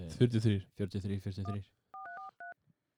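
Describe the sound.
Touch-tone dialing as a phone number for a local co-op store is keyed in: a few short, clean two-tone beeps that follow a stretch of talk.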